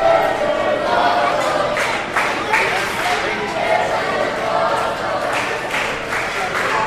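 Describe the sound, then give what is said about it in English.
Wrestling crowd cheering during a close match, a loud, steady roar of many voices that holds at an even level for the whole stretch without any clear break. “The crowd into it. The crowd is into it.”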